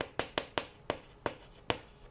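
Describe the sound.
Handwriting in Russian during a language lesson, heard as six sharp, faint taps at uneven intervals, each a crisp click that fades quickly, with no talk over them.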